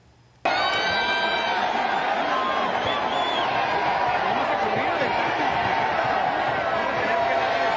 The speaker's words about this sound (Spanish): Karim León dejó plantados a 20.000 fans que esperaban verlo en la esfera de Las Vegas y así lo abucheó el público.